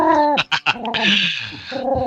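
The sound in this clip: A human voice imitates a pigeon cooing with loud, warbling, throaty tones that slide in pitch and are broken by short choppy bursts.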